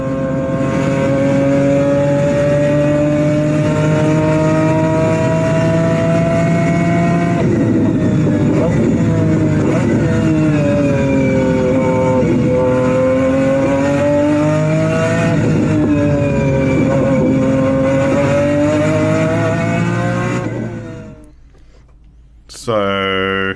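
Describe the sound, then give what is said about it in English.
A BMW V12 engine in a McLaren F1 car sings with a loud, steady, tonal howl for about twenty seconds. Its pitch swells and dips with throttle changes before it cuts off abruptly. “So that, maybe you might recognize, is a BMW V12 in a McLaren F1.”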